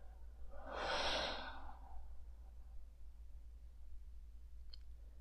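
One slow breath during a guided meditation: a soft, airy exhale swells and fades over about a second, then a low steady hum continues alone.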